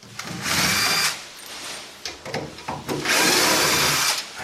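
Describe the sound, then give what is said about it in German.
A cordless drill drives screws in and out as shelving is worked on, whirring in two long steady bursts with shorter, uneven bursts between them. “der Akkuschrauber unter anderem, damit du die Schrauben rein und raus kriegst”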